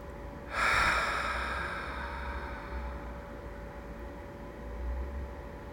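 A slow, deep breath taken during a guided breathing exercise: one long, soft, airy breath that starts suddenly and then fades gradually with a steady hiss.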